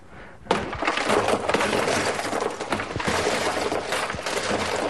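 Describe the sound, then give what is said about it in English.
A large lump of coal, too big to fit down a coal chute, is smashed apart: a sudden loud crash, then continuous crunching and sharp cracking breaks that continue to the end. “So what he's doing is he's smashing up the lump of coal that was too big to fit down the chute”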